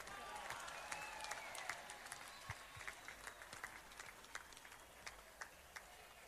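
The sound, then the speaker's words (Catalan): Crowd applause at the opening speech of the Festa Major in Sant Andreu de la Barca, a dense, steady patter of many clapping hands, fairly faint and continuing throughout. “I demano per la Junta, fem un gran aplaudiment.”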